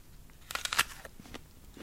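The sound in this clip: A person bites into a Gala apple with a crisp, crackling crunch. A short burst of sharp snaps is followed by faint chewing crackles, all quiet and with no talk.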